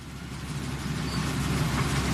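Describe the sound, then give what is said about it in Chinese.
Rice swather (windrower) driving through a paddy, a loud continuous engine drone mixed with broad rushing, rustling noise that holds level throughout. “跳上了割晒机，随着机车驶过，水稻被整齐铺放在20厘米高的秸秆茬上。”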